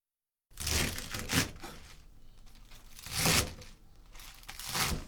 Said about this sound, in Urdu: سب سے پہلے ہم پالک اور بروکلی کو دھو کر کاٹیں گے۔